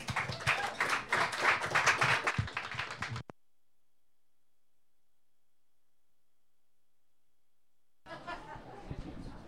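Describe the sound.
An audience applauds to welcome a poet onto the stage: about three seconds of dense, steady clapping that stops abruptly, followed by a long silence.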